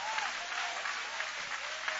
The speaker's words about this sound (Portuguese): Pode tomar o vosso assento, guarda a Bíblia com carinho e podem aplaudir, podem louvar, podem exaltar.